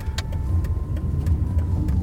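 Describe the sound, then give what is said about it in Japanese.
Car interior noise while driving on an errand trip: a steady low road rumble with a faint constant hum running through it, even in level and without talk. “車での外出の用事があるとドライビング収録ができていい感じですね”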